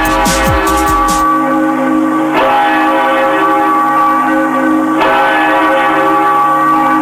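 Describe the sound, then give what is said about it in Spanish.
Church bells ring out at a parish church in Tucumán, loud, sustained resonant tolling with fresh strikes every few seconds renewing the humming overtones. “Cada vez que entran al oído las campanas, la parroquia de la Victoria revive una historia enraizada en la fe profunda de los tucumanos.”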